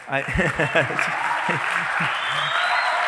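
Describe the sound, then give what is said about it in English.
Applause from a church audience, a dense, even patter of clapping that rises under a man's voice speaking at the start and carries on alone after the talk stops. “I wasn't, I was not begging for your applause right there.”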